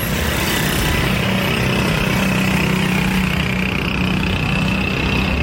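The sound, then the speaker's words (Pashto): Rickshaw engines and traffic noise form a dense, continuous motor drone with a steady buzzing hum, loud and unbroken from start to end, with no voices. “هر ډول شور، د رکشو ناکار آوازونه،”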